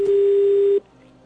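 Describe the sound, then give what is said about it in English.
A telephone tone on a call dialed to a phone in North Korea: one steady, loud line tone holding an even pitch for under a second, then cutting off abruptly to a low hiss. “Actually going to give this one another try this week. Last week it rang and rang and nobody ever picked up, and that's definitely a phone somewhere in North Korea.”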